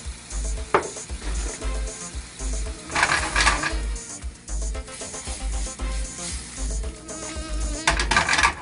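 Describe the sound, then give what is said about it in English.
Steady sizzling and bubbling of a sauce simmering in a pot on a turned-down flame, with black pepper being added; a continuous crackly hiss runs throughout over a low hum, swelling a little at moments. “Turn down the fire a little bit. Let that simmer. A little pepper in there. So we're going to add some black pepper.”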